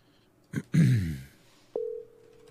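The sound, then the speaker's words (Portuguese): A steady single-pitch telephone tone for an outgoing call starts after a couple of brief noises and holds unchanged to the end. “vamos ligar pra ele, a gente vai falar com ele.”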